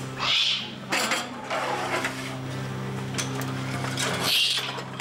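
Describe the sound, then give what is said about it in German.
A young eagle owl, about four and a half months old, in a wildlife park gives two high, rasping calls, one at the start and one at the end, over a steady, noisy background hum. “Na, was ist denn das für ein Vogel? Eine Eule. Klasse. Und was für eine? Das ist ein ganz kleiner Uhu hier. Der ist gerade mal 4,5 Monate alt.”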